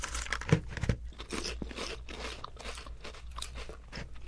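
Crisp crunching of thin crab chips, with a couple of sharp bites near the start followed by a steady stretch of softer, crackling chewing.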